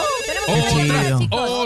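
A telephone rings with a loud electronic melodic ringtone, a short burst of stacked wavering tones that lasts under two seconds.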